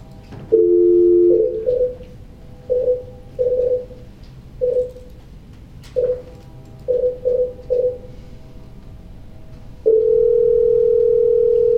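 A telephone dial tone, then a string of separate keypad touch-tones of differing pitch as a call is placed, ending in a long, steady, unbroken tone.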